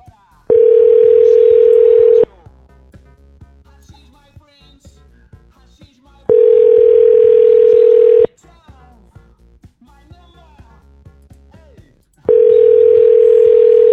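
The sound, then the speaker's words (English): Telephone tone on a call being dialed: a steady, loud, single-pitched hum in three long bursts about six seconds apart, with faint voices and low sounds in the quiet gaps between them. “Let's just dial and find out.”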